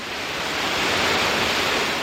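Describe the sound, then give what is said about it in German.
Wild mountain water roars through a gorge, a loud, dense, unbroken rushing hiss that swells slightly and stays steady throughout, with no talk. “Das unheimliche Rauschen des wilden Bergwassers”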